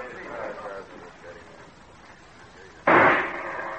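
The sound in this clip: A single sharp, loud gunshot cracks out during a target shooting match, coming after stretches of people talking and standing out clearly above the voices.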